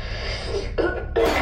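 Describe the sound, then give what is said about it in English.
Coughing from a sick person who feels unwell and hurting, with two short, harsh, rough bursts coming close together after a stretch of steady low background noise. “I coughed out smoke.”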